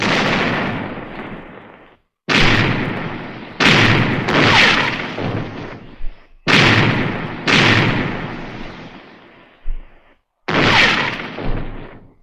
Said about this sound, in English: Give 'em another broadside! Pound 'em, lads!